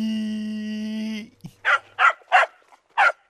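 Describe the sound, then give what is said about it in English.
A dog barks in a series of four short, sharp, evenly spaced barks, loud and clear, following a long held tonal sound at the start. “This is the nicest dog ever!”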